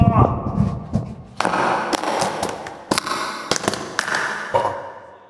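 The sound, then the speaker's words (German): Opening a door of a beer advent calendar: a rough, irregular run of cardboard rips, dull thumps and sharp crackling snaps, fairly loud throughout. “willst du mal die Nummer 6 des Bierwulf-Bierkalenders, den wir uns hier extra für euch geschossen haben, aufmachen?”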